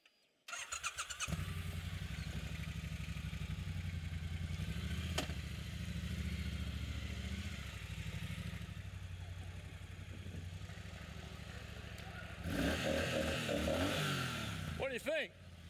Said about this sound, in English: Okay, so this is called a Triumph. It's the motorcycle that Jesus would have ridden.